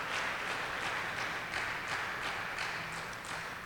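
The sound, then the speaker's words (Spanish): Congregation applause during a church service, a moderately quiet, loosely rhythmic clapping of many hands that continues evenly without voices. “¿Cuánto le da un aplauso al Señor?”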